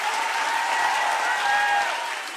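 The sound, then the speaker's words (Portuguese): Audience applause for a man, a dense, steady roar of many hands clapping that eases off slightly at the end. “Aplauda o senhor aí, gente!”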